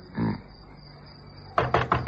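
Someone knocks on the door of a flat: three quick, firm raps come near the end after a quiet stretch.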